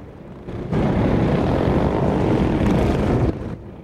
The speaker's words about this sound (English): The bandit army fire up their engines.